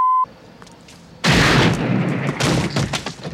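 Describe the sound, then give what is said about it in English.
A gunshot in a film scene where a man is shot. A brief steady beep and a short silence come before one sudden, loud blast with a long rumbling tail and a few crackling bursts inside it. “That's the sound of you shooting him.”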